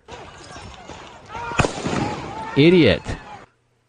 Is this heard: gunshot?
yes

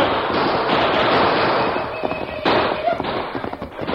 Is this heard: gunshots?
yes

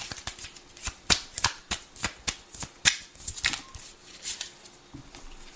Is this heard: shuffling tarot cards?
yes

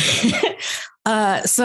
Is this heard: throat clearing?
yes

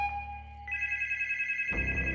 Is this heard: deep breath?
no

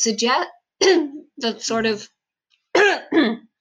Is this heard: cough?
yes

